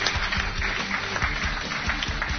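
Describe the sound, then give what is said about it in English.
Audience applause for a sideline reporter at a Northwest Missouri State University gathering: dense, continuous clapping with a steady, moderately loud texture throughout. “Give Matt a big round of applause if you would.”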